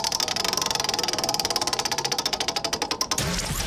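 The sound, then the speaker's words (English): Prize wheel spun on a radio show, a fast run of sharp mechanical clicks that gradually space out and slow before stopping abruptly near the end. “So here's the deal. We spin the wheel. We find out what game you're going to play.”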